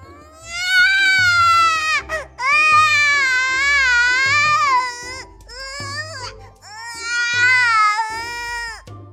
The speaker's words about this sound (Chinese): 水坑本来是个不怎么爱哭爱闹的孩子，此时委屈地看着自己的翅膀，也终于忍不住开始嚎了。